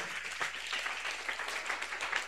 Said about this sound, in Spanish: Aplauso contento para Cristo. Alábale, alábale.